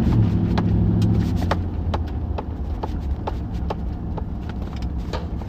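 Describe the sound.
A car driving, with a steady low engine and road rumble throughout and scattered light clicking sounds over it. No one talks.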